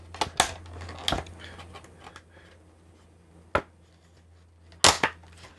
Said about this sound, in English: Oh, it sounds great. I love the sound effects. Cutting the package open.